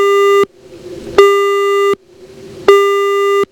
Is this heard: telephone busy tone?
yes